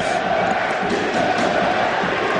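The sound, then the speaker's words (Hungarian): Home crowd roar at a Győr match against a side from Riga, a loud, continuous wash of many voices cheering the team on at an even level throughout. “Győri közönség támogatja a csapatot.”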